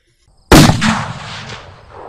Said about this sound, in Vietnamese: Hàng loạt tiếng nổ từ dưới mặt đất phát ra.